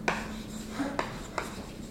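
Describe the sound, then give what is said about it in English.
Pen strokes as someone writes with coloured pens, a few short scratchy marks each starting with a small tap, fairly quiet, with no talk. “I'm just going to write in increasingly dark colors. I will change colors.”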